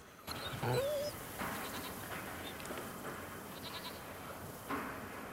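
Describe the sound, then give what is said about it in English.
A herd of goats bleat while grazing, with a few faint, wavering bleats rising over a steady wash of low background noise. “he lowers his rifle and rushes over to Melquiades, disturbing a herd of goats that are grazing beside him.”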